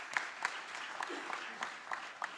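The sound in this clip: Audience applause for parents at a school awards gathering held during a church men's group fundraiser: steady, fairly quiet clapping with a few sharper individual claps standing out at intervals.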